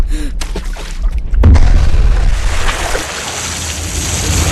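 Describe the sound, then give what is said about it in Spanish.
A grenade goes off in a swimming pool: after a few quieter scattered noises comes a deep, loud boom, then a long rushing, hissing wash of churned water that slowly eases but keeps going to the end. “¡Sargento! ¡Suelta una granada en la piscina!”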